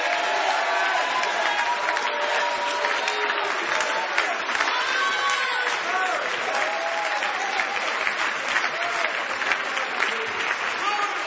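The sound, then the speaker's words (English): Church audience clapping hands during a prayer, a dense continuous wash of clapping lasting about eleven seconds, with voices calling out over it throughout. “Come on, give the Lord one more hand clap while I pray for this sister.”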